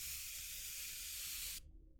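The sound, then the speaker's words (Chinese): A hydrating facial mist spray releases a fine mist in one continuous, bright hiss that lasts about a second and a half, then cuts off abruptly. “这个补水喷雾的水雾是很细腻的，也不会那么油腻。”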